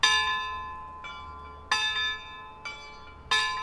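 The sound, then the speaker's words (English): Clock chimes from tower bells driven by clockwork, marking the quarter hours: five strikes alternating between a brighter and a softer bell at an even pace, each leaving a long ringing decay, fairly faint. “She likes the clock chimes. Those bells are activated by clockwork.”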